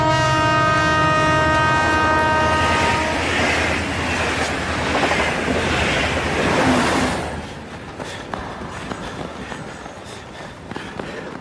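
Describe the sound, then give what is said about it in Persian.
A train passes by beside a railway track, a loud, steady roar of rushing wheels and cars with a sustained horn-like tone over the first few seconds, then the noise drops away abruptly near the end to a quieter rumble. “در همون حال قطار میرسه”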